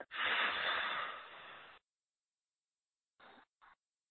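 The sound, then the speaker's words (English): A deep breath in and out during a guided tapping exercise, a long loud airy rush lasting nearly two seconds, then after a silence two short soft puffs of breath. “Take a deep breath in and let it out.”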